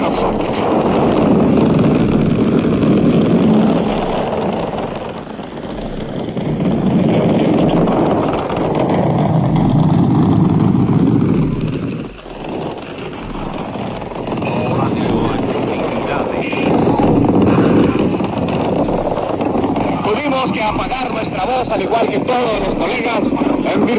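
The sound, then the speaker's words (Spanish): Motor engines roar in a loud, continuous droning rumble that swells and eases, dipping briefly midway, with a voice heard at times over the noise. “y siempre el instante en que los rugidos de los motores ensordecen el ambiente,”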